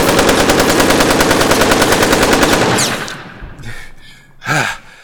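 Loud, rapid gunfire rattles in one continuous burst of many shots, with bullets ricocheting. The firing then stops abruptly and is followed by quieter rustling and a short, breathy vocal sound.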